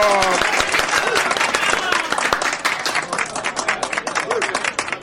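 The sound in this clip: Audience applause welcoming a governor at a staged troubadour and minstrel performance, loud, dense clapping from many hands that starts strong and carries on throughout, thinning slightly toward the end.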